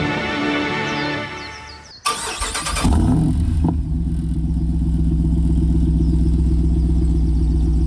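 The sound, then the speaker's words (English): A 392 V8 engine fitted with a new MagnaFlow exhaust cranks and fires up, then settles into a steady, deep, rumbling idle that holds loud and even to the end. “That is a that's a V8. Does sound like a V8. Are you going to tell me what it powers? You walked right by it. Your 392. Mm. Oh, with the new MagnaFlow exhaust.”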